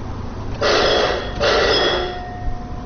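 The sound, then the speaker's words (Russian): Electric bell at a cable car station serving a mine, signalling departure with two loud, sustained rings back to back, each under a second, then a quieter hum. “Этот звонок означает, что канатка, доставляющая людей к одной из шахт и обратно, готова к отправлению.”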